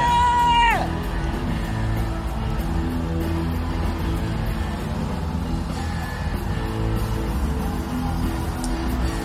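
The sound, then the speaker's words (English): An audience cheers and whoops, opening with a loud whoop that falls in pitch, then a sustained, noisy crowd roar with yelling that stays loud throughout. “Crowd's going fucking bonkers.”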